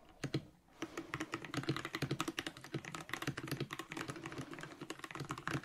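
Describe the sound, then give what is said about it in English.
Keyboard typing in shorthand: a dense, steady run of many quick, crisp key clicks that fills the whole stretch, with no voices. “Now, I type in shorthand, so it's no use trying to read my fingers.”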